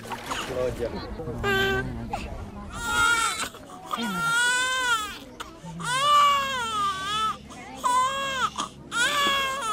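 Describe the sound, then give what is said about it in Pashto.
A group of Rohingya refugee children cry together on a riverbank in Bangladesh, loud, overlapping high-pitched sobs and wails that waver up and down continuously. “دې کې د ماشومانو یوه ډله ښکاره کیږي چې زاړي”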